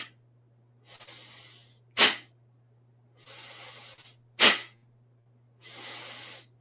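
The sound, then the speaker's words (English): Sharp, forceful nasal exhales from a breathing exercise: two loud, abrupt bursts and a third cut off at the end, alternating with softer, longer breathy sounds, with a low steady hum underneath. “I'm letting that inhale happen on its own, and then this forceful exhale through the nose”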